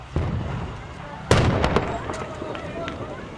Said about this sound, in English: Some stun grenades are going off.